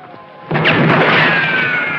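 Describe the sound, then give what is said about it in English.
Gunshots shatter a mirror in a barber's shop: a sudden loud crash arrives after a brief quiet start, followed by a sustained bright, ringing wash of breaking glass that lasts to the end. “Bullets shatter a mirror and the barber beats a hasty retreat.”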